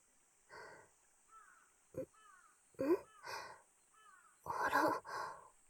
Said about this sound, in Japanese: カラスの声が聞こえてきましたね。私の歌を聞いてお返事をしてくれてるんでしょうか。